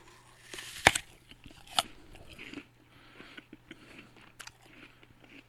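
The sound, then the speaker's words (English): Crisp bites into a very crispy green apple with a reddish-pink blush: two loud, sharp crunches followed by many smaller crunching chews, heard alone without talk. “So we have apples today, and we don't know what kind of apple this is, but we're going to have a quick taste test here.”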